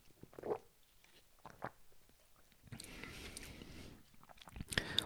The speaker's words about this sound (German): Ich nehme nochmal einen Schluck.